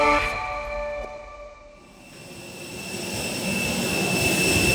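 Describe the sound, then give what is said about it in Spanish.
Jet aircraft on the runway at Dallas airport: a high, steady engine whine over broad roaring noise. The sound dips briefly, then swells into a louder, fuller roar that continues to the end. “Estamos ahora mismo en la pista de despegue del aeropuerto de Dallas. Estamos pasando justo al lado del ala del avión, a punto de subir por la escalerilla.”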